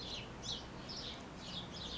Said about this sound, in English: You might hear the birds in the garden where I am doing this recording. They're twittering away.